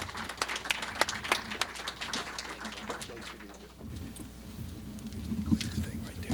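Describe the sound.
An audience applauds as a speaker is welcomed up: quick, scattered clapping for a few seconds that then thins out and dies down to quieter rustling.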